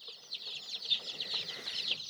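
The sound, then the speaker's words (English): Baby chicks peeping in a steady, high-pitched chorus, many small overlapping chirps forming an unbroken, fairly quiet stream as they are moved into housings with heated boxes. “Okay, we got the chicks up here.”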